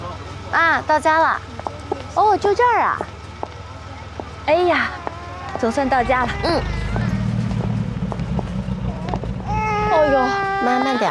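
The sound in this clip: An infant cries, probably hungry after a whole afternoon: repeated loud wailing bursts with rising and falling pitch, separated by short gasping pauses, then more continuous crying toward the end over steady background noise.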